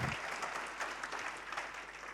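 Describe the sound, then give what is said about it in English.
Joyful clapping from a group of people: brisk, steady applause at a fairly low level, with many hands blending into one continuous patter. “Have you ever seen people give a joyful clap? It's nothing like give a joyful clap. Let's see what it looks like.”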